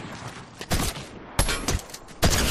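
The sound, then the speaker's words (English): Three loud shotgun blasts in a video game, each a sharp, broad boom with a short rumbling tail, spaced unevenly over constant game background noise. “And shotgun! And shotgun! And shotgun! Made me waste all my ammo, dude.”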